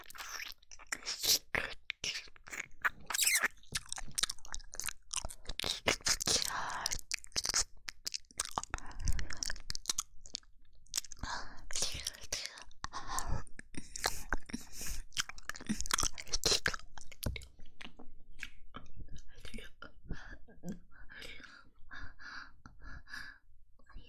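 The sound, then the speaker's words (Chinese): Chewing and crunching of food being eaten, a dense run of many crisp, crunchy bites and mouth sounds, fairly loud and continuous throughout. “人家现在正在吃得过瘾呢。”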